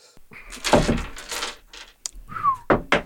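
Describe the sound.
Dice rolled for initiative in a tabletop game clatter and knock against a hard surface in an uneven burst of rattling hits, with a few more scattered clicks toward the end.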